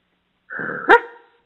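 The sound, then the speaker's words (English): A small dog yaps once, a single short, sharp, high-pitched call that follows a thin, sustained whine-like tone, heard alone without any talk. “do you hear my dog? He yap yap.”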